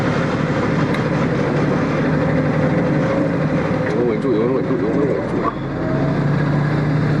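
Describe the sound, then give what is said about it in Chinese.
Engine of a large automatic vehicle pulling away in drive after the handbrake is released: a loud, steady low rumble that runs throughout, with a voice briefly heard over it midway. “放到 D档，对，松手刹，然后稍微拿住。”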